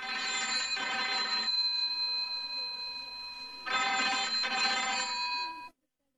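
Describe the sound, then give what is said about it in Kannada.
A push-button telephone rings with a bright, shrill electronic tone. Two long ring bursts are separated by a quieter stretch, and the sound cuts off abruptly at the end. “ಅಲ್ಲ, ಮಾತಾಡಿದ್ರು ಬದ್ಲು ಹೋಗಿ phone ಎತ್ತಬಾರ್ದ?”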